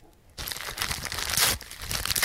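Gift wrapping paper being torn open: after a quiet moment, loud ripping and crinkling starts abruptly and continues for about two seconds, with a brief dip before the tearing resumes.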